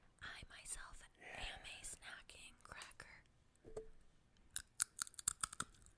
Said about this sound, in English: this is the cauliflower chips. They just taste so good. Cauliflower snacking crackers.